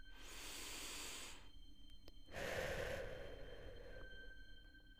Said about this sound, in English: You take a breath.